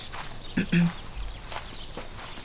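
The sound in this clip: Footsteps of a character walking forward in a mobile video game: a few soft steps, with a pair of sharper thuds near the start.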